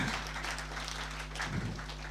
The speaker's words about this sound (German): Herzlich willkommen. Ich möchte, ja, auch einen Applaus.